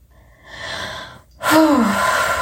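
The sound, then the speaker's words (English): A person takes a deep breath, audibly drawing air in and then letting out a louder, breathy rush that holds steady to the end, with no words spoken. “Deep breath.”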